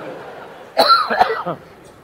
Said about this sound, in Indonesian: Itu batuk-batukan.